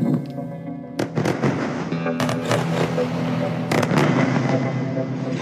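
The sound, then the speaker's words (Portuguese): Explosions from intense bombardment in Gaza during the Israel–Hamas war: clusters of sharp, heavy booms and cracks, some in quick succession, over a steady low hum. “Bombardeio, bombardeio.”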